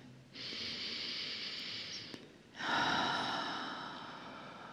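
A slow, deep breath drawn in during guided breathing in Glastonbury. Two long, soft, airy rushes of breath are separated by a short pause, and the second is slightly louder.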